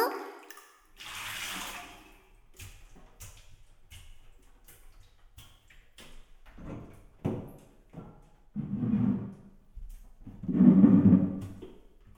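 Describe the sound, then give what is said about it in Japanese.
Water rinsing someone's back in a bath, heard as a few soft gushing pours, the loudest near the end, with small clicks and rustles between them. “ほら、おいで。お背中流してあげる。”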